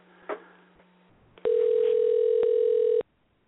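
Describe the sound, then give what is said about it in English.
A telephone dial tone sounds while a dropped call is being redialed. A single steady, even-pitched tone holds for about a second and a half, then cuts off abruptly, with a brief click and low hum before it. “Let me see if I can get him back. Try and dial him up again.”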